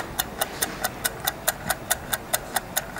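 Rapid, steady ticking from a Pomodoro timer clock set for 25 minutes. There are about 14 crisp, evenly spaced ticks in quick succession, with no voices.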